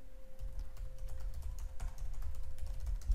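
Rapid typing on a computer keyboard while entering code: a dense, steady stream of many light clicks over a low, constant hum, with no voices.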